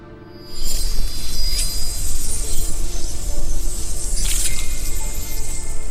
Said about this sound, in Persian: هر رشته درگاهی به یه دنیای منحصر به فرده. چاقو رو واردشون کن و بکش پایین، یه برش بزن، اون وقت مقاومت قدرتمندی رو حس میکنی.